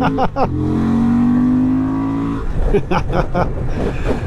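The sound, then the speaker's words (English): A Honda motorbike engine revs as it is opened up: a few quick blips, then a sustained, slowly rising tone that drops away into a rougher, uneven burble. “There's just something, there is something quite intoxicating and exciting about opening up this engine.”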